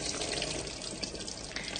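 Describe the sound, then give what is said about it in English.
Water pours out of an upturned container into a sink and swirls down the drain. It makes a steady, dense rushing wash that holds at an even level the whole time, with no voices. “It created a whirlpool when I stopped, and it just poured all the way out in a sort of circular.”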